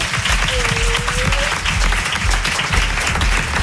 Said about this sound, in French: Et ben, vous pouvez l'applaudir, Perrine.